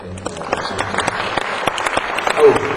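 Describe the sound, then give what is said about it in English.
Audience applause at a vaudeville show, dense steady clapping with scattered sharp claps across the whole stretch, moderately loud and even throughout. “it's just a piece of vaudeville equipment, you don't need to applaud that.”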